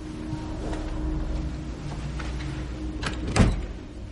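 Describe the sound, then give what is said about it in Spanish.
A door being opened as someone enters a house: one brief click near the end, over a low, steady background. “Gira hacia la puerta y toca el pomo. Sorprendida, abre la puerta y entra con precaución.”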